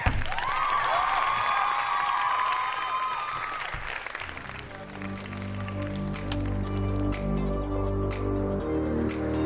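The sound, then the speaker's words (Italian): Applause in tribute to former trade union leaders, a dense patter of clapping that fills the first four seconds and then fades beneath a steady tonal, music-like bed. “che si beccano il nostro applauso di oggi”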